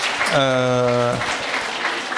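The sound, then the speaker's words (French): Audience applause at a public talk or debate, a steady crackling wash of clapping that runs through the whole moment, while a voice briefly sounds over it. “Oui, on peut applaudir, tout à fait.”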